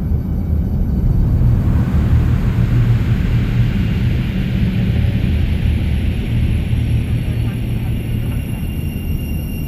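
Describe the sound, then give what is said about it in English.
A spacecraft takes off in an audio drama: a loud, steady, deep roaring rumble fills the whole stretch, with a thin high whine held above it. “Ladies and gentlemen, we've been granted clearance for an immediate takeoff. Please make sure all restraints are fastened and all electronic devices are switched to interplanetary mode.”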